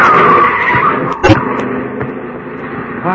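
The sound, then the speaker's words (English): Car tyres skid on a street with a sharp squeal and engine noise, then a brief, harder burst midway before the rumble settles. “Look out, Governor. Mind that car.”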